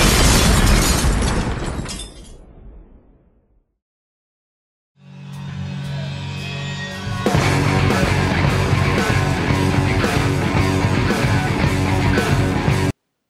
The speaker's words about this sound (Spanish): para él va esta bomba.